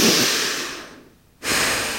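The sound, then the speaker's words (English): Deep breathing during a guided breathing exercise: a long, loud breath tapers away into a short silent pause, then another full breath starts abruptly and stays strong to the end. “And exhale. And then inhale, exhale, deep cleansing breath.”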